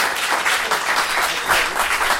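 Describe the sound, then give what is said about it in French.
Audience applause at a science café evening, a dense, steady wash of many hands clapping at even loudness from start to finish, with no single voice standing out. “vais vous demander d'applaudir encore une fois, monsieur Kirchessa”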